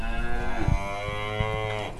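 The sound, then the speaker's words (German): Cattle mooing on a farm: a long, low, drawn-out moo with rich harmonics that holds across the whole moment, with no talking. “Mir ist gerade aufgefallen, die Kühe muhen zwar, aber sie öffnen nicht den Mund beim Mu machen.”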